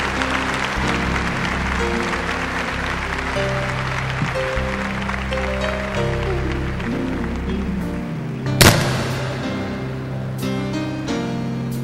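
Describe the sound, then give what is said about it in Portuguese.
A church audience applauding the word of God, the clapping mixed under steady instrumental music with sustained tones, and a single loud thump near the end. “Vamos aplaudir a palavra de Deus com toda a nossa força.”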